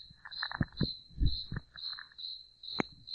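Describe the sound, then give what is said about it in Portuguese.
A cricket chirps in a steady, high, pulsing trill that repeats about twice a second, while several low thumps and knocks sound beneath it. “Que grilo, vamos pegar o grilo, todo mundo quietinho. Peraí. Pô, esse grilo, ele é original, cara.”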